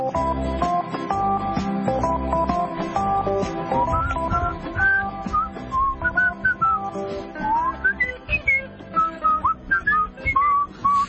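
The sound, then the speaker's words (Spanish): A person whistles a melodic tune in an unusual style learned while wearing braces. The clear, sustained notes wander up and down in pitch, with quick, higher phrases toward the end and no talk. “Uy, ¿usted silba de una manera muy rara? O sea, aprendí a silbar así cuando me pusieron aparatos”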